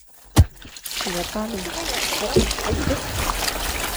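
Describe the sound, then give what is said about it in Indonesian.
Water is poured over sago fibres to wash out the starch, making continuous sloshing and trickling. It is heard under a narrating voice, with a few louder splashes along the way. “Serat-serat yang mengandung tepung sagu ini disiram air.”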